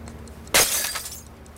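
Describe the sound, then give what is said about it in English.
A glass display case is smashed on the floor: one sudden, loud crash of breaking glass, followed by bright tinkling shards that ring on and fade out over about a second. “He smashes a display case on the floor”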